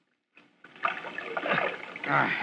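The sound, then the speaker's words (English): An oar rowing a boat through murky water beneath a dock: continuous sloshing and splashing strokes that start faintly, then build into a steady, fairly loud churn of moving water. “Shove on that oar.”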